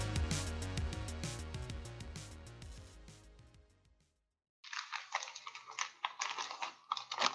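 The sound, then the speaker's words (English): A Gatsby wet wipe packet is torn open with bursts of crinkly, crackling rustling that start after music fades out and a short silence. “Oh, no, sorry, just whipping out a, uh, Gatsby a Gatsby wipe.”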